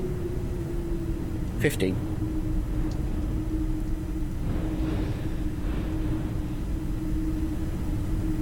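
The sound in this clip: A London Underground train running in the Tube Sim video game gives a steady low rumble with a constant motor hum and one brief click early on.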